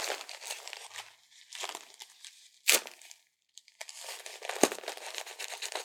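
Crinkly tape crackles and rips as a diaper is fastened on a baby. Bursts of rustling and crinkling include two sharp tearing sounds, separated by brief pauses, with no talk.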